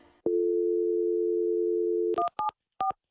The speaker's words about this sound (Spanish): Vamos con esta llamada a Texas.